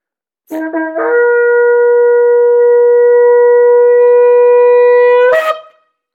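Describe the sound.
A long final shofar blast, the call of peace: one sustained, brassy horn tone held at a steady pitch for about four and a half seconds, ending in a brief rough flourish before it stops.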